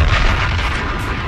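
A bomb explosion sound effect: a loud, dense roaring rumble that holds steady for just over a second without a sharp onset.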